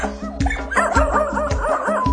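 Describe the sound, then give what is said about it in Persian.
Several dogs bark and yip in a quick, steady rhythm, one sharp call after another, loud and alone with no talk. “نه تا هاپو اومدن واقو واقو واق میکنن.”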